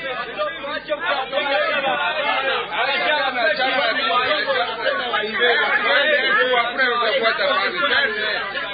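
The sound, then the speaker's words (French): Steady, dense chatter from about fifty entrepreneurs gathered in a meeting hall of a cultural centre in Bukavu, many overlapping voices forming a continuous, fairly loud babble throughout. “le bruit que vous êtes en train de suivre là, c'était une cinquantaine d'entrepreneurs qui étaient réunis dans la salle de l'Alliance franco-congolaise de Bukavu le jeudi dernier.”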